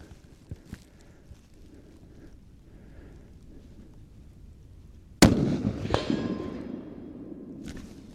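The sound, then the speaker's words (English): A single rifle shot fired from a hilltop above a field at a ballistic-gel head: a sharp, loud crack that breaks a long quiet stretch of wind and faint rustling, then trails off in a rumbling, reverberant tail. “And he's going to try to shoot the head ballistic gel.”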